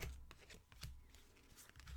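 Faint shuffling of playing cards, some of them turned upside down, heard as soft riffling bursts and light papery slaps.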